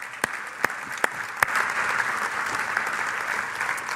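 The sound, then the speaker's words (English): A church audience applauds. A few sharp, separate claps open, then they merge into dense, steady clapping that holds at an even level. “Hey, why don't we give a big hand for people that did that?”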